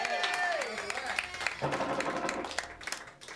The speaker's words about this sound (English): Let's give a nice hand to Dan and Doreen for this night.